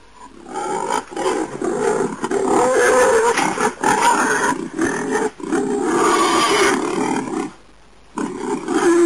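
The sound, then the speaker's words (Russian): A wild boar gives loud, rough growling roars with a coarse, noisy tone. The calls run almost continuously in bursts with brief dips, then break off in a short silence before resuming. “Кабан.”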